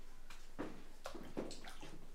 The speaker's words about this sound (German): Alles bloß, weil das Wasser gerade heiß war. Hab ich mir gedacht, wasch da halt deine Füße.